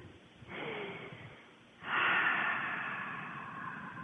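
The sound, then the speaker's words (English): Deep breathing during a guided meditation: two long, airy breath sounds, a softer one and then a louder, longer one, with no talking. “A couple of deep breaths.”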